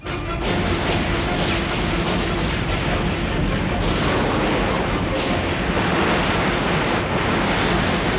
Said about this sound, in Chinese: 好了， 射击！